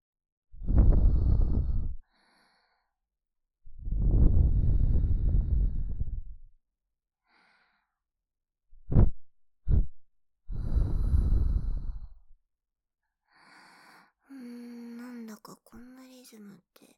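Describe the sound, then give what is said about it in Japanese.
A person's voice imitating Lamaze childbirth breathing: long, forceful breathy exhales separated by silences, then two short sharp puffs and another long exhale, ending with softer voiced sounds. “あれみたい、あれなんだっけ、あれ妊婦さんが出産の時にする呼吸、ママーズ法”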